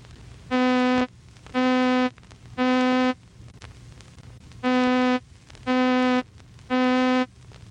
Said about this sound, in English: Middle C, with all its overtones, sounds like this.